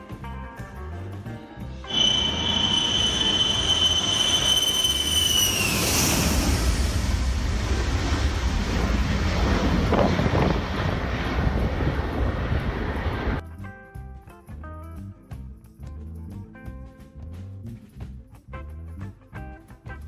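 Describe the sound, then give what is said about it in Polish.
A fully loaded Ilyushin Il-62 airliner takes off from a runway barely long enough, a loud sustained jet roar with a high engine whine that bends downward, then the roar drops to a quieter rumble. “pas tego lotniska ma 2502 metry, a dystans, przy jakim IU-62 startuje w pełni zapakowany, wynosi około 2500 metrów. W efekcie start z tego lotniska wyglądał tak.”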